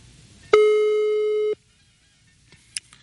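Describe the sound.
A telephone ringback tone on an unanswered call: a single steady, pure beep lasting about a second, then quiet with only a faint click near the end.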